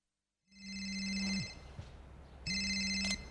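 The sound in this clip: A telephone rings before a call is answered, sounding two bright electronic ring bursts separated by a short gap, with no talk.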